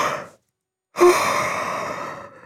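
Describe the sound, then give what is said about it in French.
A long, breathy yawn from someone in bed. A short breath and a pause come first, then a brief voiced onset opens into an extended exhale that slowly fades. “Il bâille à s'en décrocher la mâchoire.”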